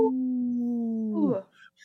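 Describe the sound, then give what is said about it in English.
A human voice imitates a wolf howl with one long, steady held note that bends downward and breaks off near the end, followed by brief faint noise. “we always like to bring awareness to our Minnesota wolf population by saying no to the wolf with a big howl.”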